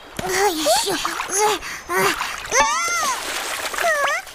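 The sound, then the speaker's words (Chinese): Someone falls into the water with a splash while practicing for a dragon boat race, amid lively, excited vocal sounds. “又落水了。”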